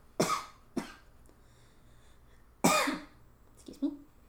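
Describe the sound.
Coughing from a tickle in the throat: four short, sharp coughs, two close together, a pause, then two more, with quiet in between.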